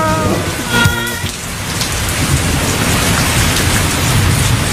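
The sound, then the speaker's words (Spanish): Steady rain falling in the city of São Paulo, Brazil, a dense, even hiss of drops striking surfaces that stays loud and constant from start to finish. “está lloviendo, chido. se está cayendo, ciudad de Sao Paulo, Brasil”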